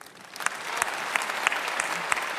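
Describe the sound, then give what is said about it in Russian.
Audience applause fills an awards ceremony: steady, dense clapping with a few sharper individual claps standing out, sustained evenly throughout at a moderate level. “Я бы попросила отдельные аплодисменты и память Виктору Цою.”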